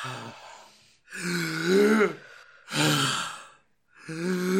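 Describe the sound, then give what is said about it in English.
Several people take deep breaths together in a few long, loud, voiced sighing exhales. Each one swells and then fades, with breathy hiss over a low hum. “We're all going to take three deep breaths.”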